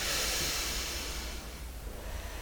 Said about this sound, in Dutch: Ah, adem, heel goed.